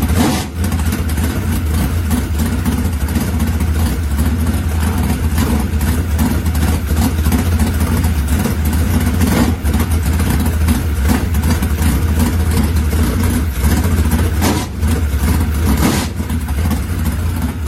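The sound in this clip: A loud car engine rated at 726 horsepower, fitted with a big four-barrel carburetor, runs and revs in a dense, continuous rumble that stays strong and even throughout, with no talk.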